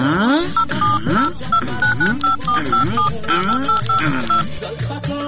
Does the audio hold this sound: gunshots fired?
no